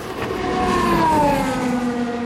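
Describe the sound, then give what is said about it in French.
A Formula One racing car's engine screams at high rpm. It is a loud, sustained harmonic whine whose pitch slides steadily downward over about two seconds. “l'aiguille du compteur grimpe à 10 000 tours minute, un son strident cisaille des environs. Et Sauvert s'envole à grande vitesse vers le premier virage.”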